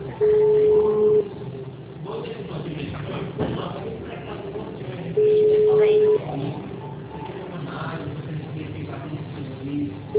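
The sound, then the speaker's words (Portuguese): Telephone line tone during a phone call: two steady, mid-pitched beeps of about a second each, spaced several seconds apart, with a third beginning at the very end, all over ongoing voices. “Por favor, aguarde. Todas as linhas estão ocupadas no momento. Por favor, tente mais tarde.”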